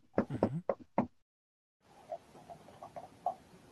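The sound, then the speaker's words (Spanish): Knocking on a small wooden door: a quick run of several sharp, hollow knocks in the first second, then a pause and a faint, noisy background with light scattered taps. “Me acerco y golpeo en la puertecita de madera.”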